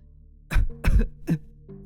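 A woman coughs after being choked by the throat: three rough, harsh coughs in quick succession, each a loud, noisy burst, followed by a faint voiced sound.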